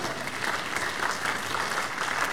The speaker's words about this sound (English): Give the Lord the biggest clap offering, everybody.